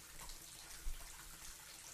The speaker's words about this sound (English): Okay, tell me if the water is too cold or too hot. Good, I double-checked it.